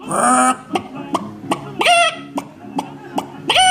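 A man imitating a rooster at a rooster-crowing championship in a small wine-region village. Short, throaty clucking bursts repeat in a steady rhythm, with a few longer, louder strained calls among them.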